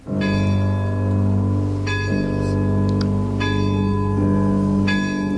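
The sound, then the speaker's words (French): A castle's great clock bell striking at midnight: four deep, resonant strokes at even intervals, each swelling into a long sustained hum that overlaps the next, loud and heard alone. “C'est la grande horloge du château qui sonne les 12 coups de minuit.”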